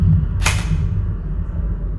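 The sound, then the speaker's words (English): A single sharp burst from a simulated Mach M4 assault rifle shot, fired in a shoot-or-hold decision test while wearing a shock belt. The short hissing crack stands out over a steady low hum. “He put on the shock belt and picked up a Mach M4 assault rifle. I'm going to call that a foe, so I'm going to shoot.”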